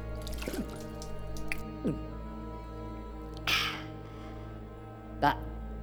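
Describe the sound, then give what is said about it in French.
A few short drip-like plops of liquid, each dropping in pitch, fall one at a time above a steady low hum. “Une seule goutte dans un premier temps.”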